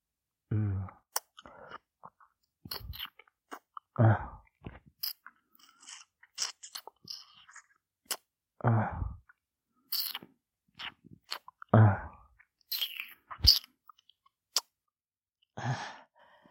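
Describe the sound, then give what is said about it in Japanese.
Wet licking and mouth sounds on an ear and neck come in many short, close bursts with quiet gaps between them, mixed with soft breathy sighs and no speech. “君の耳って、いつ舐めても美味しいな。首も舐めるよ。”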